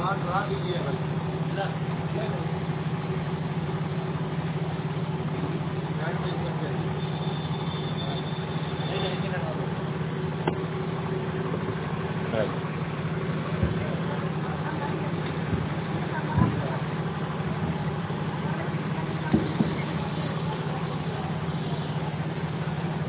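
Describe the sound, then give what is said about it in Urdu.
A generator hums steadily in the background with a constant low engine drone that never changes, while someone talks over it. “اصل میں پیچھے generator کا بھی شور ہے”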